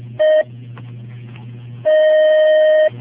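Telephone ringing for an incoming call: two steady electronic ring bursts, a short one followed by a longer one lasting about a second. A low hum runs between them, and no voices are heard.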